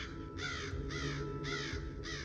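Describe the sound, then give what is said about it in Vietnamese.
A large crow caws repeatedly, about four hoarse, rasping calls in a steady rhythm, fairly faint over a constant low background hum. “Tiếng quạ réo khiến cho Lâm và Đạt giật thót mình. Ngó đầu ra khỏi rạp, Đạt thốt lên. Con quạ lớn quá.”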